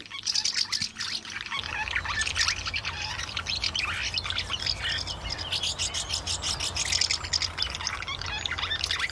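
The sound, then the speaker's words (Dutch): House martins twittering around nests under a roof gutter: many rapid, high chirps and trills in a continuous busy stream over a steady low hum. “In onze cursus Vogelzang, je hoort hem al, zijn we aangekomen bij de huiszwaluw.”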